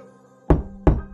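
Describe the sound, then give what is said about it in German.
Two sharp, heavy knocks sound suddenly, about a third of a second apart. Each is a loud thud that decays quickly over a faint low hum. “Das Klopfen kam so plötzlich und überraschend, wie es auch in der ersten Nacht kam.”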